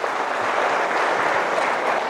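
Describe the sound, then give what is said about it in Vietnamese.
An audience at a Catholic religious talk applauds a woman with dense, continuous clapping from many hands. It holds a steady, loud level for about two seconds without voices. “Cảm ơn chị nha. Rồi, cho chị vỗ tay. Cảm ơn chị.”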